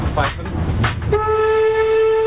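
A steam locomotive whistle blows one long, steady, clear-pitched blast as the engine pulls away, after a stretch of chuffing and rumbling running noise.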